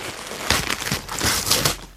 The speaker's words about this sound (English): All right, well, let me open my present here.